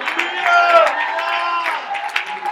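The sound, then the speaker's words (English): Congregation clapping hands at a church service, mixed with voices shouting and singing. The clapping is brisk and fairly loud under the voices, with a few sharper claps standing out near the end. “Would you clap your hands one more time? Would you shout hallelujah if you want to sing?”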